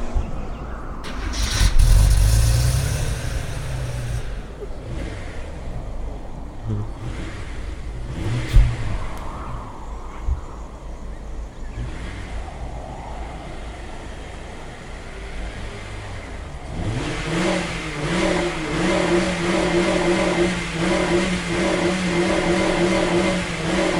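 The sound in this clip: A car engine cranks and starts with a loud early burst, settles into a rougher idle, then revs into a sustained, strong humming drone over the last third.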